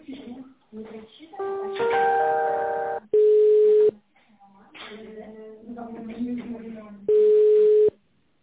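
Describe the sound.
A telephone line during a call transfer plays two long, steady, mid-pitched tones, each just under a second, separated by stretches of other line sounds and voices.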